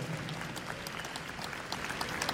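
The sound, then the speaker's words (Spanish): A church audience applauds Jesus Christ with faint, continuous clapping from many hands that keeps an even, modest level throughout. “Un aplauso a Jesucristo, nuestro Señor.”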